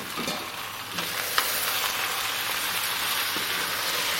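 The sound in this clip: Brined preserved lemons sizzle in a pot along with the rest of the dish. The frying makes a continuous, even hiss, broken by one brief tap near the middle, and no one talks.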